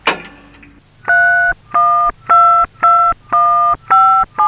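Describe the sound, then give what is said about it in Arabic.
A telephone being dialled: a brief noise, then six steady, loud dual-pitch dialing beeps in an even rhythm, separated by short gaps over a low hum. “وعلى الفور اتصلت زينب بوفاء فقالت لها بالتليفون:”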